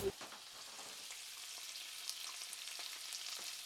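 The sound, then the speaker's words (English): Bacon fries on a stove with a soft, constant sizzle broken by many small crackling pops and spits, alone without voices. “Everybody recognize that sound? That is bacon on the stove.”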